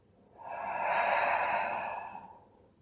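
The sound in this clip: A single slow exhale during a guided breathing exercise, soft and airy, swelling gently and fading away over about two seconds with nothing else heard.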